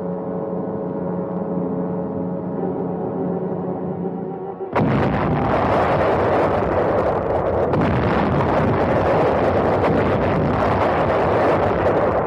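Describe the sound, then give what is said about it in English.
Naval gunfire bombardment from a large fleet of warships, fired at point-blank range on a small island at dawn. A low, steady droning hum abruptly gives way to a dense, continuous, loud rumbling roar. “Guns of the 262-ship United Nations Armada began their point-blank preliminary bombardment.”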